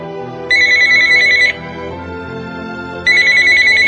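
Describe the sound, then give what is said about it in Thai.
A telephone rings in two bursts of bright electronic trilling, each about a second long, with a quieter pause between them. The steady ringing cuts through an otherwise hushed background. “เสียงโทรศัพท์ดังกังวานแหวกความเงียบ”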